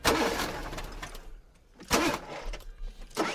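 A car engine cranks but fails to start at a Ukrainian armed forces base in Zaporizhzhia: a few loud bursts of starter whirring separated by quiet pauses, with no engine catching.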